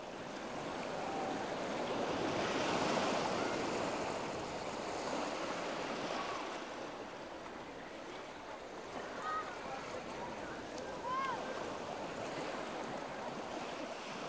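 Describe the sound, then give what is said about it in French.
Waves break and wash continuously on a seashore, a broad, steady roar of surf that swells and eases gently. “Aujourd'hui, dernier épisode, on est au bord de la mer.”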